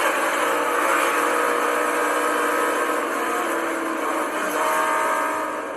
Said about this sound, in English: You can hear the RPMs pick up.